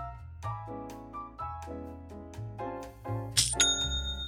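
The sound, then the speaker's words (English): A notification chime for a new sale on an online store rings out bright and high near the end. It follows a few lower, evenly spaced tonal notes. “That's the sound of another sale on Shopify,”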